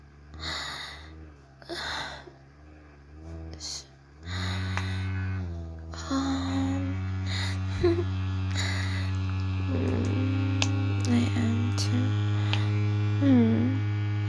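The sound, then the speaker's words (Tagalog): Low, steady electric hum from a vibrator held very close. It begins after a few breathy gasps and continues as a constant buzzing drone, with faint breaths and small sounds over it. “Maingay ba? Ganyan kasi. Sobrang lapit sa vibrator.”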